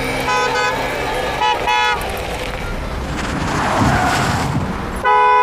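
A car horn sounds in three honks, one near the start, one soon after and one at the end. Steady road traffic rumbles underneath throughout.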